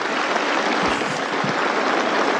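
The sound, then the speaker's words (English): A crew of people clap together continuously, a dense, steady wash of applause that keeps going at an even loudness with no pauses. “It goes on and on. Right? First one to stop clapping gets executed, boys.”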